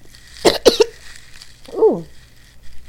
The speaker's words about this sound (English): Ooh. Excuse me. Damn near choke.